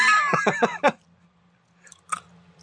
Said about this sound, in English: Oh, more crunchier. The white one's crunchier. Wow, the white one tastes like black licorice.